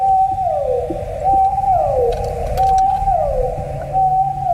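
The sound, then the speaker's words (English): Blue whale call: a few long tonal moans, each holding steady and then sliding downward in pitch, repeated at a steady rhythm over a low rumbling background. “Is that a type of whale? It is a whale. It's a blue whale.”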